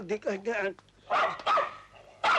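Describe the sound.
A dog barks during a civil wedding ceremony, a few short, sharp barks coming after a voice speaks and then between quieter stretches.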